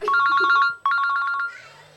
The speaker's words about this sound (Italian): C'è un telefono che suona, è il mio.